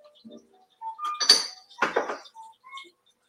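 Toppings set into a little dish while preparing a chicken dish, heard as a few short clattering bursts and light ceramic clinks, with no talk.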